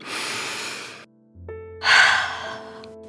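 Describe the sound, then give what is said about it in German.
A deep breath drawn in and blown out during a guided relaxation exercise: a long airy inhale, a brief pause, then a stronger breathy exhale that fades, with soft sustained musical tones underneath. “Noch einmal tief Luft holen und auspusten.”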